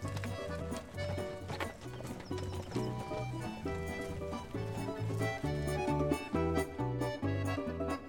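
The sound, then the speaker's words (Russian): Rhythmic clip-clop of hooves as horses are ridden out across open country, a steady trotting beat set against tonal music. “Оседлали братья коней, попросили у батюшки благословенницы и поехали в чистое поле, куда глаза глядят.”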